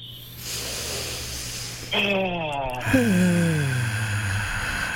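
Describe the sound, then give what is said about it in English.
A deep breath drawn in through the nose as a long airy hiss, followed by a big voiced exhale whose pitch slides downward, over a steady tonal background. “3, 2, 1, all the way in through the nose. Nice big exhale.”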